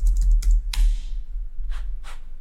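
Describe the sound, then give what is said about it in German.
Computer keyboard keys clack as a prompt is typed into ChatGPT: a quick cluster of taps, then a few spaced presses over a low steady hum. “Und wenn ich hier nichts finde, gehe ich wieder zurück in ChatGPT und schreibe, gibt es weitere?”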